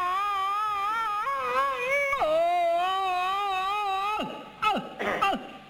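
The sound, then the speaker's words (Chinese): A voice imitates the exaggerated, stylized crying of the old-man role in Peking opera. It holds a long, wavering wail with heavy vibrato, and the pitch drops sharply twice. The wail ends in a few short, choppy sobbing bursts. “京戏的这个哭是用了夸张的手法。 哦， 跟我们生活中的那个哭啊有很大距离。 对， 老生一哭是这样。”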